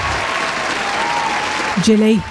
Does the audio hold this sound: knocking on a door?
no